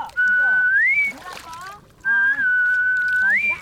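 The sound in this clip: A surfacing marine animal gives two long, clear, high whistles. Each holds a steady pitch and then rises at the end, with faint water sounds and a voice in the gap between them.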